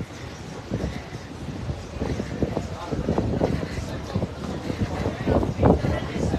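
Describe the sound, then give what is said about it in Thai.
Strong wind blows in a continuous rushing roar, buffeting the microphone with uneven gusts that swell louder toward the end. “เขาบอกลมแรงไม่ไหว”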